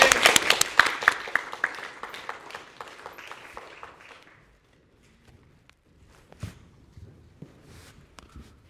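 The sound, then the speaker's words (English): Audience applause welcoming a band about to sing Nepali songs, a loud burst of many hands clapping that thins and fades out over about four seconds, leaving near quiet with a few scattered faint sounds. “All right, big hand for Nando.”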